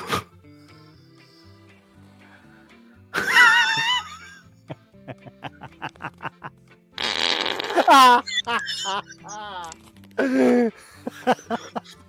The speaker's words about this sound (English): No farts were faked here.